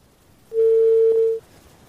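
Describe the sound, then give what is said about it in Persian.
A phone line tone sounds after a dropped call: one steady, mid-pitched electronic beep lasting under a second. It is heard alone against a faint background hiss. “خب فکر کنم تماس ما با بانو شاهی قطع شد.”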